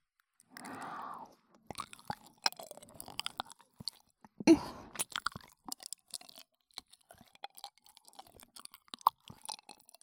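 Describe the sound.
Someone eats and chews food, making quiet, irregular crunching and moist mouth clicks scattered through the whole stretch, with many small bites and chews and no talking.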